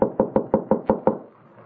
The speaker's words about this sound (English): I'll knock.